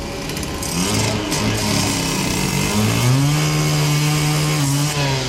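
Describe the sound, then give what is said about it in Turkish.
A power saw cuts through an iron bar stuck in a bus, giving a loud, continuous engine-like whine that runs through the whole clip, with its pitch stepping up partway through. “Otobüse saplanan demir kesilerek çıkarıldı.”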